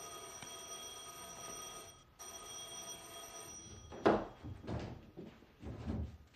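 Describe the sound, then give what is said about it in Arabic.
An electric bell rings at a house door in two steady bursts separated by a short gap, followed by a few louder thumps, with no talking. “لقيت الجرس بيرن”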